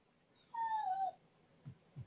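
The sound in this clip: A dog whimpers for attention with one thin, high whine lasting about half a second and sliding slightly downward in pitch, followed by two soft, low thumps.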